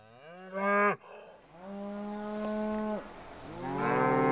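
Mother cow mooing near her calf on a farm pasture, three long, loud harmonic lowing calls with short pauses between, the middle one steady and drawn out, the last rising; no talk.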